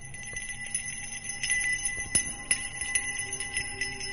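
A hand bell is shaken in a quick, irregular run of many small metallic strikes over sustained ringing tones, fairly faint throughout.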